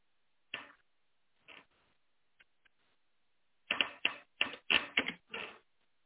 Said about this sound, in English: as I type this in, Second Tim 2.15